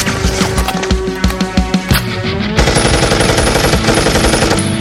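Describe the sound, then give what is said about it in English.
An M249 machine gun fires loud, rapid automatic bursts. Choppy, irregular bursts come first, then give way to a denser, sustained stretch of fire. “Give Junior a crash course on firearms. I'll cover you with the 249.”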